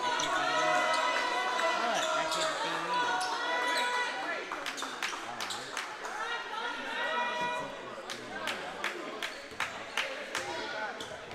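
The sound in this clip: Sharp basketball bounces at the free-throw line as a player dribbles before a second free throw in a basketball game, a run of crisp, evenly spaced thuds over a steady crowd murmur.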